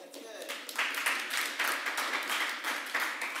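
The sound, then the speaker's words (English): An audience at a church sermon gives mild clapping, quiet and thin, in a series of short, soft bursts with no strong swell. “What a mild little clap that was.”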